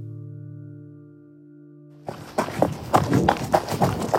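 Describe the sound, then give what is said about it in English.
Running footsteps through the rubble-strewn streets of wartime Bakhmut: a quick, uneven series of hard, crunching steps that starts abruptly after a steady, low tonal hum. “running through the rubble strewn streets of Bakhmut.”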